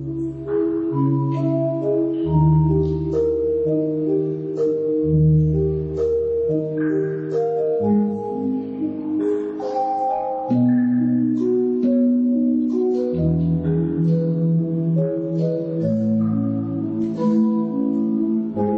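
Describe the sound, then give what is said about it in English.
A Scandinavian electronica composition played on a cave organ, the first original piece recorded on the instrument. Sustained, bell-like tones step through a steady melodic pattern over deep, resonant bass notes, evenly loud throughout with no voices. “it's cool because it's on a cave organ”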